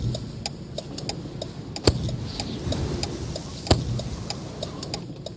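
Car hazard warning lights tick in a steady, even rhythm, many light clicks over a low rumble, with a couple of louder clicks standing out.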